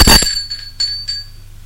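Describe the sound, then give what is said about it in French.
A doorbell rings with one loud, bright strike, then a few softer repeats of the same high tone that fade out, with no voices. “Sonne à la porte.”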